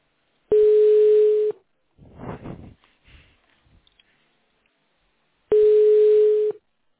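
A telephone rings with no answer: two long, steady ringback tones about a second each, several seconds apart, with quieter sounds in the gap between.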